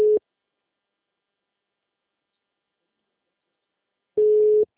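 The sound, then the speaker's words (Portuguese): A telephone tone heard after a dropped call: two short, steady, mid-pitched beeps, one at the start and one near the end, separated by several seconds of silence. “estava falando com você agora, a ligação caiu, tudo bem?”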